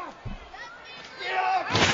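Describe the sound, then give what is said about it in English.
A heavy thud as a wrestler takes a sidewalk slam on the ramp in a wrestling arena. After the impact, the crowd's roar swells and stays loud, with voices talking over it. “Mike with a sidewalk slam on Tozawa right on the ramp. Through the arena here as it reverberated.”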